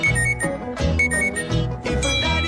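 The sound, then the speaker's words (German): A smartphone rings with a steady electronic ringtone melody of sustained, bright tones that repeat in loud, continuous phrases for the whole stretch, with no voices over it. “Wenn Ihr Smartphone am Strand klingelt, während Sie gerade in der Sonne liegen”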